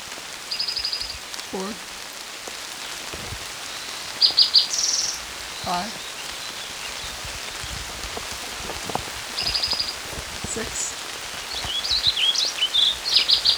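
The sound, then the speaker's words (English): Warbling vireo singing beside a creek in hard rain: several brief, high, warbled phrases come at intervals over a steady hiss and patter of rainfall. “Warbling Vireo”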